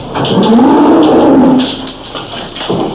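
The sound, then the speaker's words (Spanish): A bull lowing: one long, loud, deep moo with a slight upward bend in pitch, followed by a few fainter, shorter noises. “No me hable, gañote, que ahí viene el toro, hombre.”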